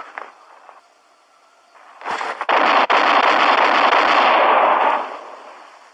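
Gunshots from a loaded gun during target practice: a few sharp reports merge into a loud, sustained rush of blasting noise lasting about three seconds, then fade out, with no talking.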